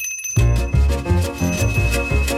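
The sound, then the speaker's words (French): A small summoning bell rings insistently with a repeated ding-ding. The strikes are loud and evenly spaced in a rapid, steady series, each one ringing on briefly into the next. “Au ding-ding oppressant de la clochette qui sonne, qui ressonne, qui résonne, qui ordonne.”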